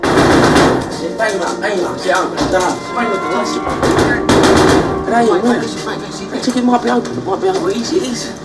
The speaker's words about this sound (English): bashes on a steel sheet covering a door.